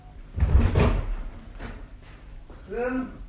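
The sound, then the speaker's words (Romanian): A door opens in a staged comedy scene, with a few heavy wooden bumps and a rattling scrape, followed by a voice beginning to speak at the end. “Iată, a ajuns la ușă. Nu e nimeni? Deschid acum!”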